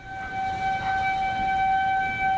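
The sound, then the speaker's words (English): An outdoor severe weather warning siren in Nebraska wails a steady, sustained tone with strong overtones, holding a constant pitch throughout, loud over faint background noise. “One of these outdoor sirens, as the one behind me, goes off.”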